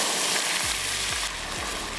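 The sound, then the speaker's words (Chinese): Water poured into golden caramelized rock sugar in an oiled wok sets off a loud, continuous sizzling hiss that eases slightly partway through. “一直要炒到金黄金黄。 我们进行加水，”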